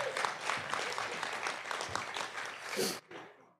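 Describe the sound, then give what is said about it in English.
Audience applause from a morning conference crowd, a dense steady clapping that holds for about three seconds at moderate loudness, then cuts off abruptly and leaves a faint tail. “Finally, give yourselves a hand. You're the 9 a.m. crowd.”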